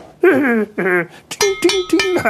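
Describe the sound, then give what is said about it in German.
Small pointed pick hacking a hole into a tooth: several sharp metallic clinks and taps with a ringing tone, preceded by high, gliding vocal sounds. “Mit der Hacke hacke ich erst ein ganz kleines Loch in einen Zahn oder gleich in mehrere Zähne.”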